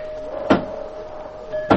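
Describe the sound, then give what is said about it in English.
Two knocks at a door in a radio drama, widely spaced single thuds over a faint, steady hum. “There seems to be someone at the door. So there is. Shall I go, Aunt Agatha?”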